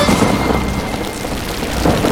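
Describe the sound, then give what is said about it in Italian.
Heavy rain pours down in a dense, steady roar of hissing drops, loud and continuous throughout with no voices. “Senti come viene giù. Piove. Senti come piove. Madonna come piove. Senti come viene giù.”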